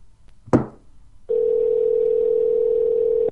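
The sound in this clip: Telephone tone on an outgoing call: a sharp click, then a single steady, unbroken tone holding for about two seconds before cutting off.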